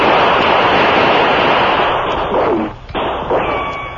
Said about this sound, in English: Shots come from every side of building.